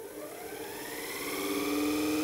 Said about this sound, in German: Und um die Leistung des Elektromotors nun zu bestimmen, schalten wir ihn ein.